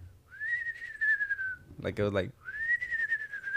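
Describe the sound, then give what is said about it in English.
A person whistles to imitate a whistle they once heard, producing two long, clear, mid-high tones that waver slightly. Brief talk comes between the two whistles. “But the whistle was like, I don't know if I could whistle. It was like,”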